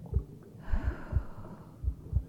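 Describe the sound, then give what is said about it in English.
A soft inhale during a guided breathing exercise, a faint airy rush lasting about a second, with quiet low rhythmic thumps pulsing underneath. “Now, breathe with me. In 2, 3,”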